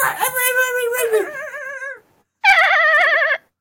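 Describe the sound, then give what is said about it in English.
A person imitates a dog with two drawn-out, wavering whine-like vocal cries separated by a brief pause, both fairly loud and with a quavering pitch. “I'm just barking.”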